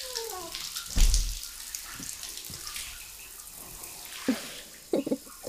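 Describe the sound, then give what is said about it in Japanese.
Water poured over someone's back while washing in a bath: a loud splash early on, then a low running-water wash with a few brief splashes near the end. “お背中を流しします。”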